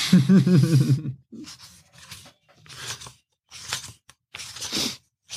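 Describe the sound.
A book is picked up and its pages handled, making dry paper rustling and brushing. A low vocal sound comes briefly at the start, followed by a few separate scraping, crinkling bursts with quiet gaps between them.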